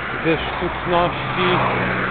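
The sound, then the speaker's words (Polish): Cars driving past outside make a steady, broad traffic rumble throughout, with a person talking faintly over it. “jak tutaj słychać, jak samochody jeżdżą.”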